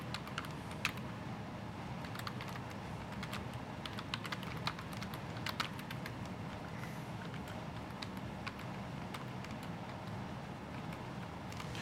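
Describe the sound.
Computer keyboard typing: many quick, faint key clicks in an irregular rhythm over a low, steady background hum.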